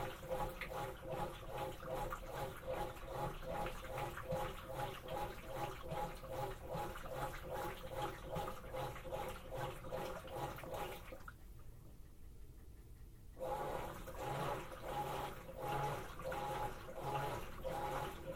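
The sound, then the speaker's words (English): A washing machine in its long agitation cycle churns the wash water in steady, rhythmic back-and-forth sloshes, repeating many times at an even pace, with a brief quieter break partway through before the churning resumes. “This is our longer agitation. This is going to continue until when it's nearly ready to drain out this wash water.”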